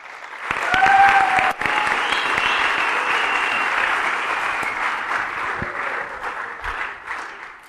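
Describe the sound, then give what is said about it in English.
An audience at an evening church service applauds to welcome a speaker. Loud, dense clapping swells in within the first second, holds steadily for several seconds and slowly thins toward the end. “So let's give him a big hand as he comes in.”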